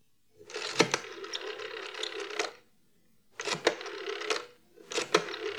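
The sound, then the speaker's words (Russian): A telephone is dialled to call the zoo: three whirring, ratcheting mechanical bursts, the first longest and the later two shorter, separated by brief silences. “Ну, позвоню в зоопарк.”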